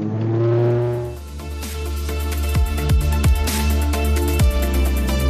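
Aircraft engines throttling up as the plane accelerates: a loud, dense mechanical drone with strong layered tones, rising into a sustained roar that stays loud to the end. No voices.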